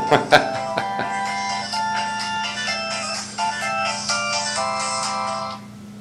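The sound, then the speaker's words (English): A melodic electronic phone ringtone signals an incoming call, its tones repeating steadily for several seconds after a few sharp knocks at the start, then stopping just before the end. “Must have an important phone call. Somebody's calling.”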